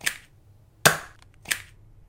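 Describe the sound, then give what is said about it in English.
A dart gun fires three times in a comedy skit. Each shot is a sharp, snappy pop, and the pops come at uneven intervals with quiet between them. “Let me help. How? By shooting you with darts!”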